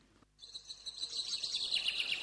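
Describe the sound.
Small birds chirp and twitter in a continuous high-pitched stream of quick notes that starts after a brief hush and grows a little busier, fairly faint and with no voices.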